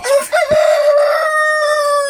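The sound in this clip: Rooster crowing in the evening on a small farm: one long, loud crow that holds a bright, steady harmonic tone for about two seconds after a brief rising start, heard alone with no talk.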